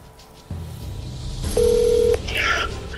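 A telephone call being placed: a single steady, mid-pitched electronic tone sounds for about half a second over a low background hum, followed by faint higher chirps.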